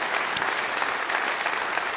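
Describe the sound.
Audience at McCabe's applauds a singer-songwriter after his live performance. The clapping is dense, even and continuous, with no voices over it.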